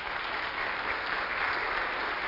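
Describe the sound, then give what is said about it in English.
Audience applause fills the whole stretch, a steady dense patter of many hands clapping at even loudness from start to end, with no voices standing out. “This is an applause for you.”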